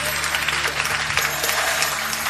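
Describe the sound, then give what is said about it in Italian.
Applause for the baby Jesus at a Christmas nativity celebration: steady, dense clapping from a crowd that holds a fairly even level throughout without clear breaks. “un applauso proprio al bambino Gesù”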